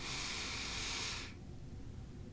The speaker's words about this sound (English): Tuck your chin. Take a deep inhale. Fill your belly up.